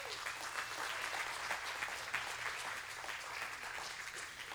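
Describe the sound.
Applause from a church audience welcoming guests at a morning service: dense, steady clapping from many hands, holding an even loudness for the whole stretch with no voices rising above it.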